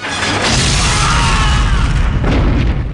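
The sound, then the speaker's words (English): Billowing explosion from Rambo's explosive arrow in a film, a loud, deep, sustained roar with heavy low rumble that stays strong for the whole stretch. “The billowing explosion takes out three soldiers.”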